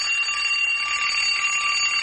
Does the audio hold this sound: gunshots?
no